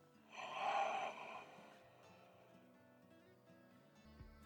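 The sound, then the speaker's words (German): A deep breath drawn in, faint and airy, during a guided breathing exercise, rising and then fading over low, steady tones underneath. “konzentriere dich auf deinem, auf deinem Atem, atme hier tief ein und aus.”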